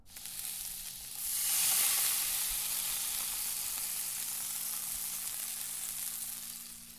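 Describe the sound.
Coriander mixture, strips of red paprika and peas sizzle in a frying pan, a quiet, steady hiss that swells briefly near the start and then settles into an even crackle.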